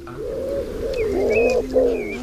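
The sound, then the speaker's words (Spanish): Wood pigeons in breeding season coo before dawn in a huge cedar tree, a dense, continuous chorus of soft, low, overlapping hoots with steady pulsing, fairly loud and unbroken. “el palacio de Sofraga, y ahí hay un cedro enorme, gigantesco, donde hay un auténtico tumulto de palomas torcaces en celo. Aún no ha amanecido.”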